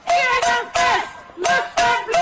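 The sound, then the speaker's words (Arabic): Protesters at a street demonstration held in heavy rain chant against Israel: loud, rhythmic bursts of massed voices rise and break off in short phrases, with brief gaps between them. “ورغم الأمطار الشديدة هتف المحتجون ضد إسرائيل ورددوا هتافات أخرى مساندة للشعب الفلسطيني.”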